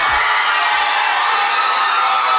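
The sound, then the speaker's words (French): Crowd cheering and whooping for the winner announced at a competition final, a loud, dense, unbroken roar of many voices that holds steady throughout. “Et la foule en délire qui applaudit la grande gagnante de la 30e édition des Francouvertes.”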